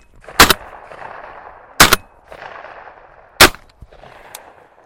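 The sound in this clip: Three sharp, loud shotgun blasts fired at a flushed bird during a bird-dog field trial. Each crack has a short rumbling tail, and the shots are spaced about one and a half seconds apart against a quiet background.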